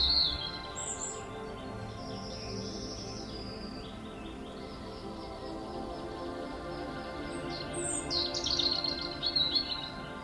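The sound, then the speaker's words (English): Soft birdsong in a warm meadow: scattered high chirps, bunched near the start and again toward the end, over a faint, steady tonal background. “The only sounds you can hear are those of the bees and the birds that flit about you in the meadow.”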